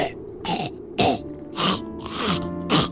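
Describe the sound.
Harsh throat clearing, a series of several loud, rasping bursts in close succession.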